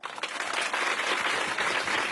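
Audience applause welcomes the Lu Yi art troupe: dense, continuous clapping that rises quickly and holds at a steady, loud level.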